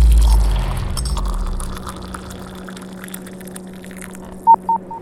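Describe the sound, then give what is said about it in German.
Three short electronic beeps, an incoming-message alert tone aboard a spaceship, sound near the end, after a low rumble fades into a quiet hum. “Eingehende Nachricht.”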